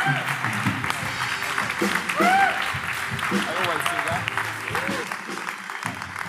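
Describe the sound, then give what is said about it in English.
A church audience applauds to welcome a pastor: continuous clapping runs throughout, with voices calling and cheering over it and a louder swell near the middle. “So can we put our hands together right now and welcome Pastor Brent Cameron right now.”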